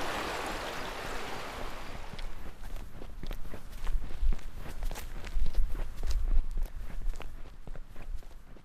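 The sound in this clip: Footsteps walking along an oak-lined alley past a swimming pool and new family houses, a steady run of many crisp steps that grow clearer after a stretch of broad hiss at the start, with no talk.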